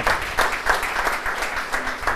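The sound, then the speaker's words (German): An audience at a business event applauds to welcome a speaker, giving a steady, moderate clatter of many hands that is unbroken throughout. “Ein herzliches Willkommen und ein Applaus.”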